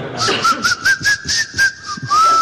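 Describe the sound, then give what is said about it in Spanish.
Whistling through the teeth: a thin, loud, mid-pitched tone holds nearly level with slight wavers, accompanied by a rhythmic series of breathy, hissing pulses. “y también sé silbar con los dientes”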